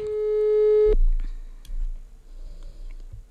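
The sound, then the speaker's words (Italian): A telephone call rings unanswered: a steady electronic ring tone holds for about a second and stops, followed by faint clicks and light handling noises. “volevo provare a chiamare. Chi chiami? Da chi casa, chiami? Vediamo se ci rispondono.”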